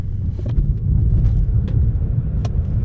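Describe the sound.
A car accelerating quickly gives a steady low rumble of engine and road noise with a few faint clicks over it. There is no speech.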